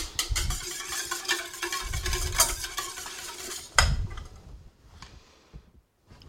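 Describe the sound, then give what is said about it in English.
An egg is whisked in a bowl, with rapid, rhythmic clicking and scraping of the whisk for several seconds before it thins to quieter, sparser taps. “So I'm gonna get my egg and whisk it a little first, because otherwise you're just gonna be pushing it around for a while,”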